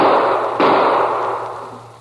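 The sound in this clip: Gunshots fired at a diamond-shaped target card, a couple of sharp loud bursts about half a second apart, each leaving a broad noisy ring that slowly fades.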